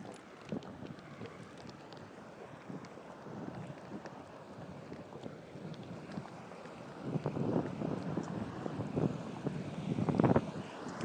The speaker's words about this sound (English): The water seems to be going down a sort of rapidy thing here, quite dropping quite steeply.